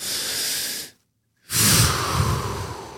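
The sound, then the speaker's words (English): A big, full, deep human breath: a long airy inhale, a brief silent pause, then a loud, slow exhale that fades out gradually, heard alone with no speech. “I'm giving myself a big, full, deep breath. So do it with me.”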